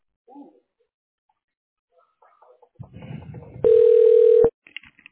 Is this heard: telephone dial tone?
yes